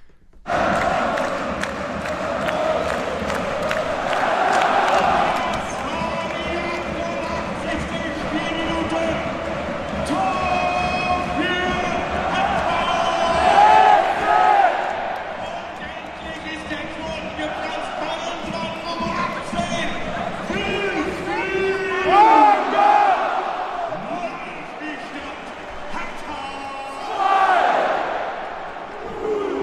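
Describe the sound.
Football crowd chanting and roaring in Berlin's Olympic Stadium shortly after a goal made it 2:1, a dense, continuous mass of voices that swells at several points.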